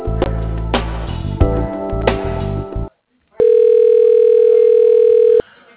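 Telephone line sounds as a call is transferred to an office voicemail: a stretch of dense, buzzing line tones, a short gap of silence, then one steady electronic tone held for about two seconds before it cuts off.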